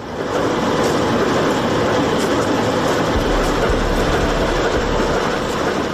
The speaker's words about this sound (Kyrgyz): Кант шаарындагы темир жол бекетине поезддер тынымсыз келип келет. Бул поезд шаардагы ири семет заводуна күн мурун келген көмүрдү чиркеп кетүүгө келген экен.